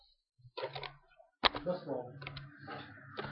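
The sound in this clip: Keyboard typing as someone writes up an article, with clicks and taps mixed in among voices talking throughout.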